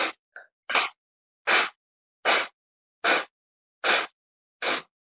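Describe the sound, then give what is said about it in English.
Forceful nasal exhales in a yogic breathing exercise come as a steady series of sharp, breathy puffs, evenly spaced under a second apart and fairly loud, with no talk between them. “Inhale, nose. Exhale in 8 strokes.”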